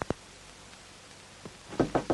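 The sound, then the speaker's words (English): Knocking on a hotel room door: a couple of faint taps at the start, a pause, then a few quick, firmer knocks close together at the end. “Now, Dale approaches the hotel room door. She hesitates before knocking.”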